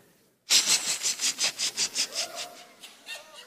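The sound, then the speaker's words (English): A voice imitates a pressure cooker's little top valve hissing steam: a quick, even run of many breathy hissing bursts, loud at first and fading toward the end. “But in the pressure cooker, you hear them pressure cookers, they got that little valve on the top.”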